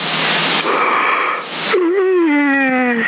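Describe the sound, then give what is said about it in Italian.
A yawn right against the microphone over a CB radio link: a long breathy intake followed by a voiced groan that dips and then slowly falls in pitch, loud and band-limited. “Gli sbadiglio, mi è entrato il microfono in bocca.”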